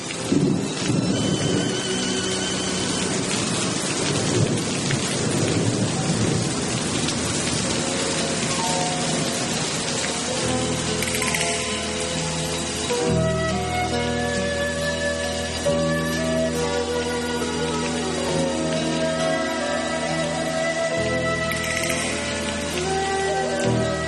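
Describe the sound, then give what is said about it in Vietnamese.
Steady rain pours down with deep rolling thunder, the dense hiss of falling drops continuing unbroken while low rumbles swell and fade across the whole stretch. “Ngoài hiên mưa rơi rơi,”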